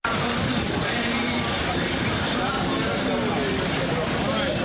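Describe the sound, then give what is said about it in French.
Continuous crowd babble mixed with vehicle noise at a busy interurban bus station in Dakar with old, worn-out vehicles, a steady dense hubbub with no clear single voice. “Notre correspondante, Seydina Abagué, a fait un tour à la gare interurbaine des Beaux Maraîchers de Dakar.”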